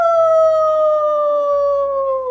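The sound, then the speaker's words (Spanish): A wolf howls in one long, smooth, loud note that slides slowly downward in pitch and holds steadily for about two seconds. “Mamá Loba quiere que sea feroz, muy feroz, y le enseña a aullar.”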